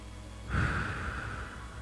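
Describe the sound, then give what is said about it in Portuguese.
A single slow, soft breath with a gentle airy hiss that starts suddenly and fades out, heard alone. “inspira. E expira. Mais uma vez.”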